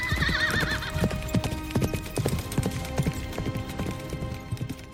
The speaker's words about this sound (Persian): ولی اسب تو رخشه میتازه